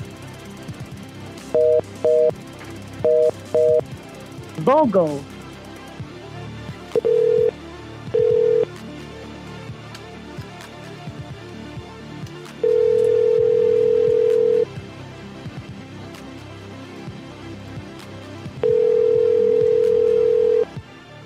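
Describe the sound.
Landline telephone tones: a few short paired dial beeps and a quick sliding tone, then steady beeps, two short and two long, separated by pauses.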